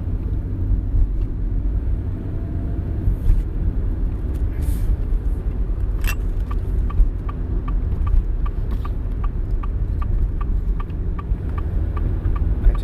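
A car driving along a road, a steady low engine and tyre rumble throughout, with a faint regular ticking running through the second half.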